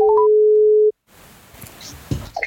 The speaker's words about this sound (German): Wir sind gerade auf deiner Mailbox gelandet.